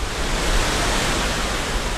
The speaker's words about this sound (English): The new flood wall blocks her view, but you can hear the water racing behind us.